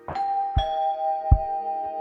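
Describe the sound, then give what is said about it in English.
A doorbell rings at a squat in the Netherlands in the mid-1980s. The sustained, steady mid-pitched ringing tone lasts throughout, with a few low, soft thuds underneath. “in the Netherlands, the doorbell rang.”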